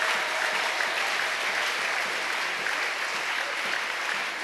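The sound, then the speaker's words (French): Loud, sustained applause from a church audience clapping for the Lord at a thanksgiving prayer gathering, a dense, even roar of many hands that continues steadily without pause. “Acclamons le Seigneur très fort. Let's clap for the Lord loudly.”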